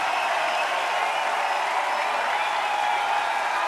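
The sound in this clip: Audience applause fills a live concert as a performer is cheered on stage: dense, steady clapping with no gaps, evenly loud from start to finish.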